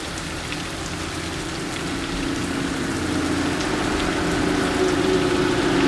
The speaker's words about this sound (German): Der Regen trommelte auf das Metalldach.